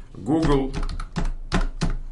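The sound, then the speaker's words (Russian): Someone types a search on a computer keyboard while talking. A few distinct keystroke clacks sound under and between the speech. “Я сейчас прямо вот, не исходя с этого места, отправляюсь в Google Maps. Я пишу Maps.”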